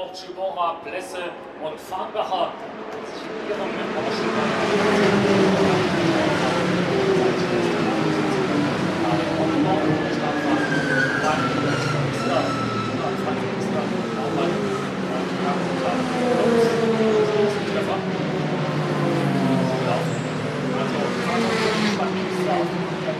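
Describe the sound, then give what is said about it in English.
GT3 racing cars roar past during a long Saturday-evening race, a loud continuous engine drone whose tones slide downward in pitch as cars go by, with voices over it. “Still waiting on the GT3 cars coming around. And here they come, as if by magic.”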